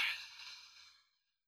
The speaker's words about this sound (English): And a slow, long breath out through your nose.